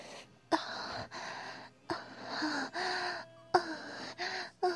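Heavy panting breaths come in a series of breathy, gasping bursts with brief gaps between them, each harsh and airy, at a fairly low overall level.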